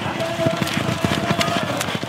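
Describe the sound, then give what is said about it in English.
Horses gallop on a dirt race track during a windy relay race, producing a dense, rapid patter of hoofbeats over a continuous rushing, noisy rumble. “The jockeys get ready, and they're off, racing around the dirt track. Dust flies up from the horses' hooves as the riders whip the animals.”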